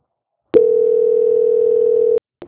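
A telephone line tone during a call transfer: one steady, unbroken mid-pitched tone that starts abruptly, holds for about one and a half seconds, cuts off sharply, and is followed by a brief click.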